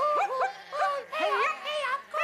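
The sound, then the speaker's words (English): A three-legged dog gives a quick series of high, yelping barks and whiny yips, each short and sharply pitched, with brief gaps between them. “The three-legged dog, sensing a paying job, hops, bounces and limps into action.”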